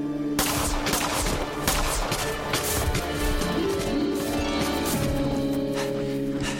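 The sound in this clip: Gunfire on a snowy wooded slope: many rapid shots packed into a loud, continuous roar that runs from start to finish without pause.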